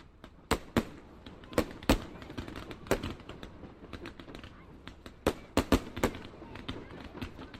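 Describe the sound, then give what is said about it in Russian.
Fireworks burst in the sky with a run of sharp, irregular bangs and pops. Fainter crackles fill the gaps between the louder reports. “А потом мы любовались салютом, который мириадой всполохов и огней осветил небо.”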